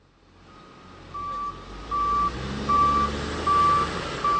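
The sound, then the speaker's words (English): Reversing beeps from backhoes and other heavy equipment clearing a landslide on a highway: a steady series of evenly spaced high beeps over a low, rumbling diesel engine. “State Department of Transportation workers used backhoes and other heavy equipment to clear the landslide between 6 and 7 mile Mitkoff Highway throughout the day Friday.”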